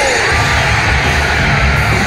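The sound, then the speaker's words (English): Wrestling crowd screaming and roaring for Stone Cold, a dense, loud wall of yells and cheers that holds steady throughout without a break. “Listen to the scream the crowd gave everyone. Too many numbers. And this crowd coming alive, chanting for Stone”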